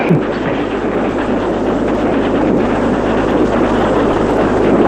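A running locomotive train produces a continuous, dense rumbling roar that stays steady and loud throughout, with no distinct separate events.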